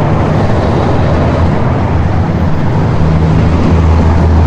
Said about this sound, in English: It's kind of hard to be serious when there's all this traffic here.